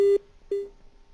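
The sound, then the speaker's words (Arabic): A telephone call connecting tone sounds as two short beeps at the same steady pitch, separated by a brief gap, with the second trailing off more softly. “الو الو الو اتصال هاتفي.”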